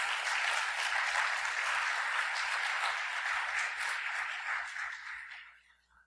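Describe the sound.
Audience applause welcomes a speaker who is being introduced, a dense, steady wash of clapping that holds evenly for several seconds before tapering off and fading out at the end.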